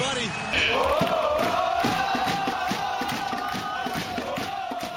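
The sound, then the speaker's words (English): Crew supporters packed into the Nord deck roar and chant loudly, a steady sustained crowd noise with a pulsing rhythm running through it. “And look at the Nord deck there. The crew faithful, ever so loud.”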